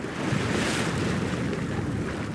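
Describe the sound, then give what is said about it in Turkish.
Sea waves at a wave energy plant in Karaburun harbour, a continuous loud rushing of surf mixed with wind noise, steady throughout. “Milli Deniz Dalga Enerjisi'nin üretim tesisi alanındayız. Denizdeki dalgalardan enerji üretiliyor.”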